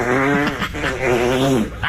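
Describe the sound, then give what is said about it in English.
A long, loud, buzzy fart holds a steady low pitch for about two seconds, breaking briefly near the middle before carrying on. “They found him because he farted. He couldn't hold it in.”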